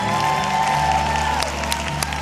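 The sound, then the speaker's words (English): Audience applause welcoming Gloria Copeland to the platform at a Christian gathering: dense, steady clapping from a large crowd that holds at an even level for the full stretch, with a few sharper claps standing out. “Would you please welcome to the platform Gloria Copeland.”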